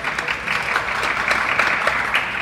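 A live audience gives a light smattering of applause: scattered, uneven claps at moderate loudness with small surges, lasting a couple of seconds.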